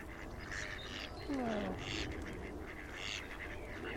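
Ducks quack on the water while being fed, giving a few faint, raspy calls and one longer call that falls in pitch, over a low steady background.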